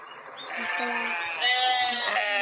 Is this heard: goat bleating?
yes